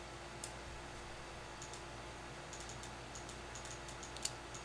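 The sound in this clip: Computer mouse clicking: a scattered series of faint, light clicks over a steady low hum, some arriving in quick pairs.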